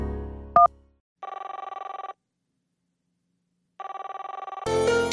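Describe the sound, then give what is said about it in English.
Ringback tone of an outgoing telephone call: a short beep, then two long, buzzing rings separated by a stretch of silence, before a louder, dense sound cuts in at the end. “The woman on the line, whichever sister it was, might know the answer. I gave her a call back.”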